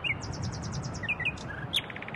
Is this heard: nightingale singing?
yes